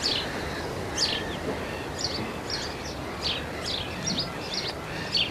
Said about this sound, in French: et nos gazouillis, chers à nos bois et à nos forêts.